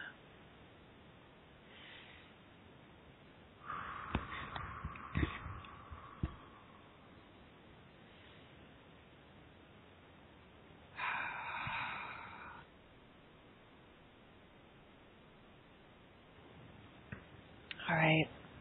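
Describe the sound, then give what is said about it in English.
Slow, deliberate breaths, drawn in through the nose and let out through the mouth during a guided relaxation moment. A few soft, airy rushes rise against a quiet background, separated by long pauses, with some faint clicks. “Let's just take a moment and take a couple conscious breaths here, nice and slow, in through the mouth. Or excuse me, in through the nose and out through the mouth.”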